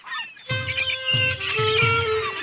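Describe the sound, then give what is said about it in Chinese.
Crows calling overhead, several harsh, harmonic caws overlapping one another, loud and continuous. “好多乌鸦喺上面啊！ 又要赶走佢哋。”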